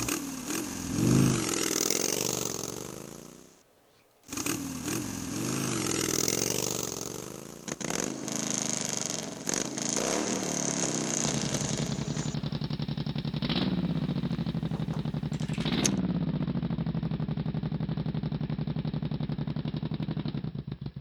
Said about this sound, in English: Oh, there's a motorcycle outside.